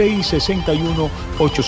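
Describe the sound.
A telephone rings with an incoming call on a radio phone-in line, a repeating pattern of bright electronic ring tones.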